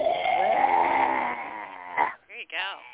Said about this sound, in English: You take a big breath in and you stick your tongue out and you let it hang down to the bottom of your chin and you go.